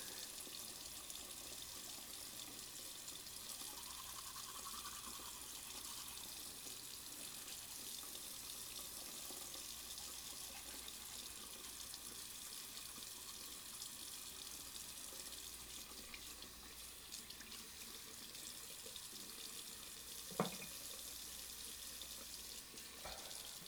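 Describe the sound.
Water runs from a tap into a sink as a faint, steady hiss throughout, with one short knock near the end.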